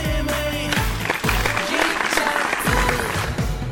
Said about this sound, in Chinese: 此处应有掌声。